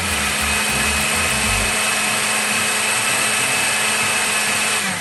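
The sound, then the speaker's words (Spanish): A blender purées shelled corn kernels with vegetable broth into a thick, creamy mixture. The loud, steady whirring motor has a low pulsing rumble at the start that settles into an even drone. “Comenzamos desgranando los choclos y licuando los granos con un poco de caldo vegetal hasta obtener una mezcla espesa y cremosa.”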